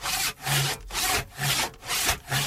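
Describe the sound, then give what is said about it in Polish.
A hand saw cuts through the lower branches of a Christmas tree in rhythmic back-and-forth strokes, about five loud rasping passes separated by short pauses. “Zwariowałeś? Choinkę piłujesz! Te dolne gałęzie tylko.”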